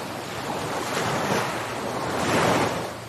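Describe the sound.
Ocean waves wash in with a broad, rushing surf that swells twice and eases between, steady and unbroken, with no voices.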